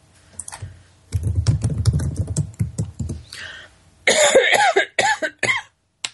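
Coughing from a tickle in the throat: a run of short, rough, low bursts, then a few louder, strained throat sounds, with no talk.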